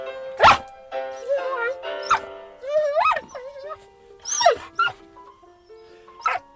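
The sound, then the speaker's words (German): A dog howls and whines while three pianos play, with several sliding, wavering cries rising and falling in pitch over steady musical tones. “Heult Ihr Hund bei anderer Musik auch so?”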